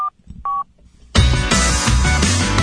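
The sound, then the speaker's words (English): Two telephone keypad tones beep briefly, each a clean electronic pitch separated by a short pause. About a second later, loud continuous music bursts in and carries on. “I dial numbers and music happens.”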